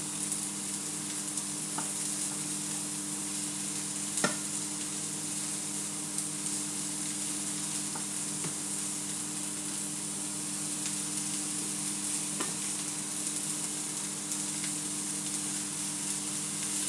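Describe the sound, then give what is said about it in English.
Loads of vegetables stir-fried in a shallow pan give a steady, faint sizzle throughout, with a few scattered ticks and clicks from stirring. “Right, so let's stir fry you. Loads of vegetables.”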